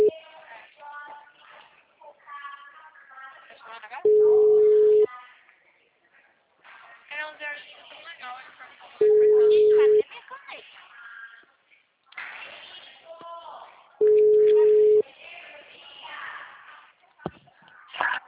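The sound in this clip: The ringback tone of an outgoing phone call: three steady, mid-pitched tones, each lasting about a second and spaced roughly five seconds apart, with people talking in the gaps between them.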